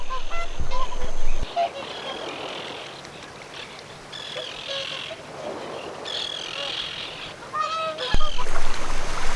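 Honking calls of a mother water bird guarding chicks hidden in tall grass beside a large Central Asian freshwater lake, scattered goose-like honks rising over a steady hiss of background noise.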